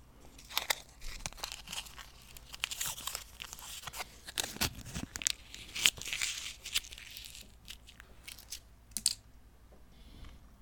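A snack wrapper crinkles and tears as it is pulled open and the snack is broken apart. Many quiet, uneven crackles, rustles and crunchy snaps follow one another.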